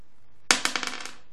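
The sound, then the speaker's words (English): A single die rolled on a hard surface gives a sharp clatter, followed by a quick run of lighter bouncing clicks that come closer together and fade within about a second. “So what I'm going to do right now is roll my die and see who wins tickets.”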